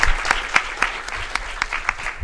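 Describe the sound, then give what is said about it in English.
Audience applause for author China Miéville at a reading: a dense, continuous patter of many hands clapping, with sharper individual claps popping out, fairly loud and even throughout. “Could you please, another round of applause for China Mieville.”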